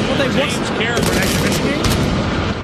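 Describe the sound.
Fireworks set off at a stadium in a video game: dense, continuous crackling and popping bursts, loud and unbroken throughout like rapid gunfire.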